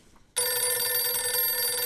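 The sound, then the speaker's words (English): Telephone ringing: a bright electronic ring starts abruptly and holds as a steady stack of high, buzzing tones through to the end. No voices. “I think we're getting a phone call. Oh, shit. You better pick it up.”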